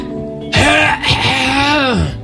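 A wet, mucus-laden throat clearing from a person with phlegm in the throat. It comes as a loud, drawn-out, voiced rasp with a groaning tone and a brief break partway through.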